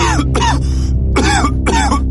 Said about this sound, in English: It started with a single cough.